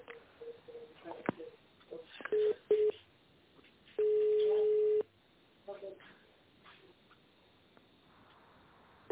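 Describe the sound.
During a call transfer, a telephone line gives a couple of short beeps and then a steady single-pitch tone lasting about a second, over a quiet, narrow-band phone line.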